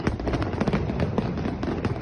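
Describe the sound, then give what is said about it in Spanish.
Fireworks crackle from the night fireworks display of the Fallas festival in Valencia, fired with 1,000 kg of pyrotechnic material. A dense, continuous barrage of many overlapping pops and crackles stays loud throughout. “uno de los fuegos artificiales más esperados y espectaculares de las fallas. 1,000 kilos de material pirotécnico y una duración de unos 17 minutos.”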